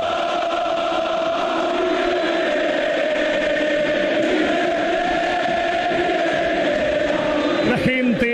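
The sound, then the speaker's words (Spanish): River Plate football fans in the stadium keep up a sustained, dense roar of cheering and chanting that holds fairly even throughout, with a slight stir near the end. “Se levanta el público de River. Escuchen al público millonario”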